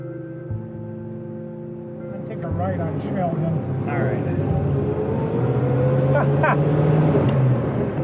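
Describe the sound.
A 1960s car engine sounds through its muffler, first a steady low idle, then a louder, rough, continuous drone that builds slightly, with talk at moments.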